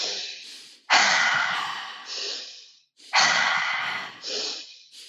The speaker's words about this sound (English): Then we want to do 10 deep breaths in through the nose and out through the mouth.